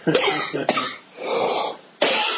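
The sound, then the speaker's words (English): A person coughs in a few harsh, rough bursts separated by short pauses, with a raspy exhale between them. “It makes you cough.”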